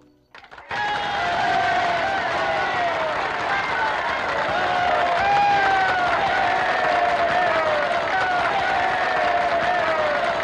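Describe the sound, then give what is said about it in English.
A crowd of well-wishers cheers and claps as a newly married couple leaves their wedding. The sustained wash of applause and excited voices starts suddenly and stays loud throughout. “Douglas is greeted by a crowd of well-wishers”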